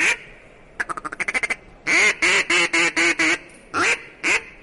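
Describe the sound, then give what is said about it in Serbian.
A duck call lure quacks to call a duck: a quick run of short, clipped quacks, then a series of louder, longer nasal quacks, and two more after a short pause. “Pa doziva ovaj patku.”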